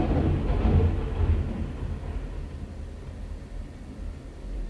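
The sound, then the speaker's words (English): Thunder: a low, broad rumble, strongest near the start and slowly fading over the following few seconds. “there's some more thunder there”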